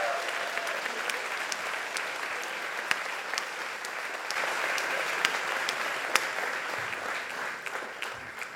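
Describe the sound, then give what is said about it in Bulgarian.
Steady, continuous audience applause at a comedy roast, a dense even roar of clapping with occasional sharper claps standing out, lasting throughout. “Дайте ни аплодисменти за Любо.”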